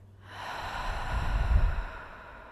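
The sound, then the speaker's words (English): A single long, deep breath taken during a guided relaxation exercise, a soft airy rush that swells gradually and holds strong before easing off. “So let's breathe in together. In. And out.”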